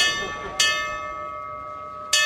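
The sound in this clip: Old fire engine bell, the kind once used to warn people before mechanical sirens, struck three times in loud, bright clangs whose ringing tones hang on and slowly fade between strikes.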